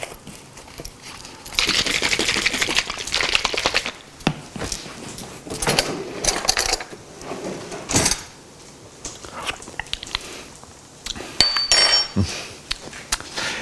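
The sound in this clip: A lid set onto a pot of Thanksgiving leftovers with torn sage leaves gives metallic clinks and knocks amid scattered kitchen clatter of cookware and utensils.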